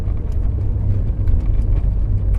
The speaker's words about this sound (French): Dans les vastes plaines jaunies de l'Alberta, la petite voiture supporte mal les rafales.